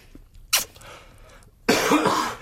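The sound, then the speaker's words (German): A smoker coughs twice during a cigarette break: first a short, sharp burst, then after a pause a longer, rougher and louder cough. “Boah, ich habe ein bisschen einen Husten.”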